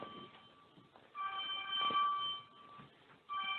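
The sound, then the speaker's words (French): An alarm going off during a prayer gathering: a steady, high electronic tone with bright harmonics that swells and fades in a few bursts over low background noise. “Je crois que c'est l'alarme, ça, n'est-ce pas, frère?”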